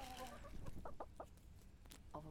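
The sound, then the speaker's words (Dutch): Farm hens cluck while pecking at potato peels and kitchen scraps, a quiet series of short, choppy clucks in an irregular rhythm. “Mijn kipjes lusten alles. En als dank voor al die restjes krijg ik eieren elke dag.”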